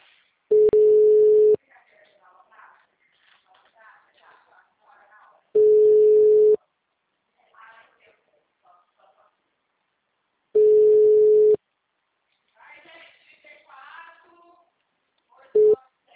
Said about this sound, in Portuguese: Eu não sei qual é o WhatsApp, porque eu tô tentando ligar esse celular aqui, que eu acho que é desse, porque dos outros dois não é.